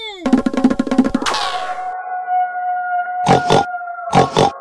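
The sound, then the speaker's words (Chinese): Piglets grunt and squeal as they are caught: a rapid run of pulsed grunts at the start, then a sustained tone and two short, sharp bursts near the end. “小猪们一个一个被抓住了”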